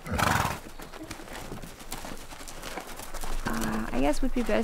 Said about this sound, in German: Und gleich bekommen die Fohlen ihre erste Lektion.